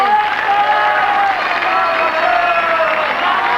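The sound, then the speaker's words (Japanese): Audience applause in a studio at a 1970s Japanese radio show, a dense, steady wash of clapping that holds at an even, fairly loud level for the whole stretch with a tonal layer running beneath it. “はい拍手をどうぞ”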